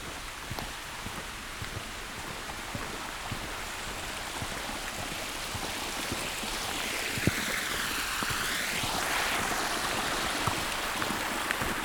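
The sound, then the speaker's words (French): Waterfalls flow in a mountain beech forest, a steady, dense rush of water with faint scattered splashes that continues unbroken throughout. “une forêt de hêtres, des cascades qui s'écoulent.”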